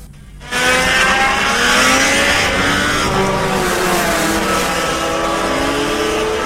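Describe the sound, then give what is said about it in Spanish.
Go-kart engines racing at a Rotax kart meet with 2- and 4-stroke classes. The sound starts abruptly and holds a loud, sustained high-revving drone for several seconds, with no voices. “Hoy y mañana, karting en Charata. Se corre la cuarta fecha del RMC Rotax. Categorías de 2 y 4 tiempos.”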